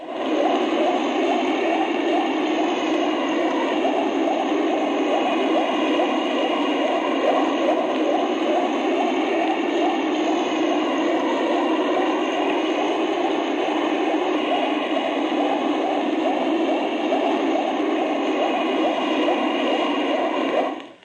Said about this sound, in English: That was a fleet-type sub. It makes about 20 RPM per knot. Figure out the sub speed. The RPM was 140.